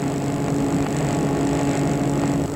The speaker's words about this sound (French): Il a sorti la voiture du garage.